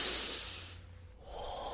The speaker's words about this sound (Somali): Ma doonaysa inaad isku dayda inaad neef dheer qaadataan? Haye bilaaba.